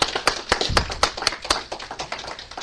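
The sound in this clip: A church audience claps for three newly baptized members, giving a short burst of irregular, overlapping handclaps that comes in uneven pulses from a modest group.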